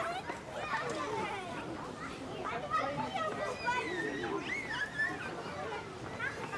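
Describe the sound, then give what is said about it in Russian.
Children playing at a playground, a busy layer of overlapping young voices, shouts and chatter that continues steadily throughout at a moderate level. “идет вдоль детской площадки, заходит в калитку, смотрит на играющих детей”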